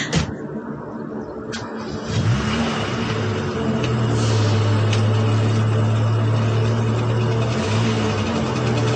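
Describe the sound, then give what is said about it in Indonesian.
A car engine revs up and pulls away as the driver hurries off, its steady low hum climbing in pitch and then holding loud and even with a couple of surges. “aku langsung berlari masuk ke dalam mobil dan langsung menjalankan mobilku bergegas untuk segera pulang.”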